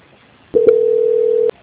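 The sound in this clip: A single steady telephone tone sounds on the line during a call transfer: a pure, mid-pitched beep lasting about a second, opening with a faint click and then cutting off abruptly.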